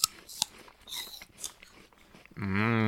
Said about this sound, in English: All right, I'm taking a bite.